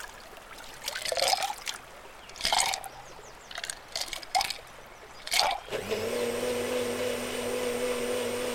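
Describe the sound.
Blender mixing a margarita, preceded by a few short liquid splashes and pours, then the motor kicks in with a steady, loud whirring hum that runs to the end.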